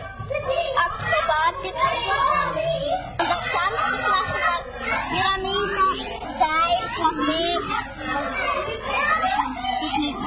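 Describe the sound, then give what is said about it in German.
A boisterous crowd of children practising at a children's circus fills the air with continuous loud shouting, chatter and playful calls, overlapping voices rising and falling without pause. “ein richtig kunterbunter und auch lauter Haufen beim Üben. Der Kinderzirkus Robinson, kein Wunder”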